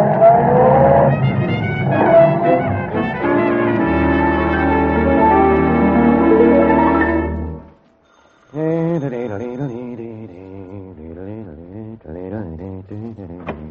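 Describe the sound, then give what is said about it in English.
A taxi cab drives up, its engine sounding steadily with some tire noise for about seven seconds before it cuts off, followed by a man's voice talking. “Did someone call for a cab?”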